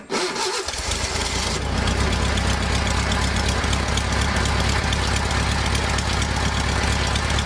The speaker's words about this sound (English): we were talking about the sound of those classic VW bugs before they remade it into the Beetle. Yeah. This is it.